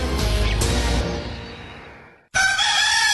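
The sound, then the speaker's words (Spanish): A rooster crows to greet a new day, a loud, harsh call that fades away and then gives way to a brighter, more tonal burst cut off at the end. “El cantar del gallo al iniciar un nuevo día.”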